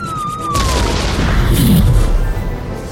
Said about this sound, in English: That flyer, it is firing on them. It's a good shot.